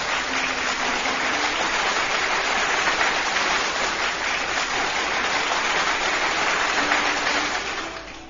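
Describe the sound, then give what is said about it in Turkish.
Steady applause, a thick continuous wash of many hands clapping with no voices, holding an even level for about eight seconds before easing slightly at the very end. “Kocaman bir alkış gönderiyorum sana.”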